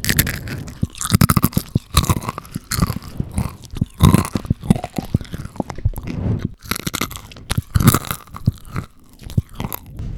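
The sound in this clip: Loud, crunchy chewing and biting of air-fried food, with many rapid, crackling crunches in an irregular rhythm and no talking.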